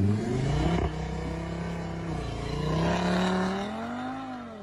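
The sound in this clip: An Audi RS car engine revving at a motoring festival, a loud continuous droning roar whose pitch dips briefly, then climbs and eases again as the revs swell and fall.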